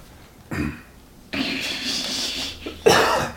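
Coughing from a person who has just inhaled some kimchi: a short hacking burst, then a longer rough, rasping fit, and finally a sharp, louder cough.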